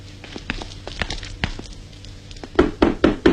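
Knocking on a door during a staged troupe performance: a few light, scattered taps, then a run of about four louder, evenly spaced knocks at the end.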